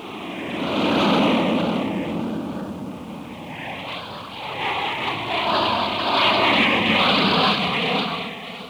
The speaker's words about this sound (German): Flugzeuge.